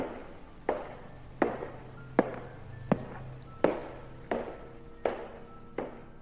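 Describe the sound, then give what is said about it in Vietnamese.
Eight slow, evenly paced footsteps cross the corridor of a cold prison cell block. Each step lands as a sharp knock with a brief ringing tail, over a low steady hum. “Tiếng bước chân vang lên trên hành lang của khu phòng giam lạnh lẽo.”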